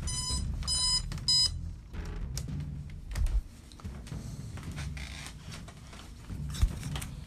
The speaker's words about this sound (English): That is my alarm.